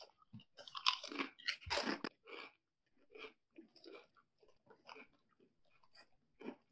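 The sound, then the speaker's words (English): Loud crunchy bites and chewing of a cheeseburger-flavoured Pringles snack, with a dense burst of crisp crunches at first, then softer, intermittent chewing crackles separated by short pauses. “Kind of tastes like a cheeseburger. Yeah, there's a lot of salt. It's a very salty cheeseburger.”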